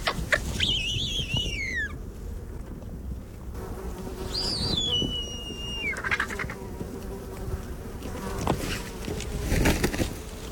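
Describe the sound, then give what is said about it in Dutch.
A bearded vulture, a huge brown bird of prey with a white breast, gives two high, thin whistling calls that slide downward in pitch. A constant insect buzz runs underneath. “Wat je hoort is de lammergier. Het is een enorme bruine roofvogel met een witte borst.”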